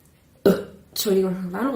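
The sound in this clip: A woman burps: an abrupt low burst, then a longer, loud, rasping voiced belch with a wavering pitch.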